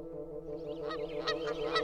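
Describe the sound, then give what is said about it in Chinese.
Wild geese honking: a few sharp, overlapping nasal calls break in over a steady background tone, building toward the end at moderate-to-quiet volume. “这时，大雁们从教堂的钟楼上飞了下来，在城市上空来回盘旋。”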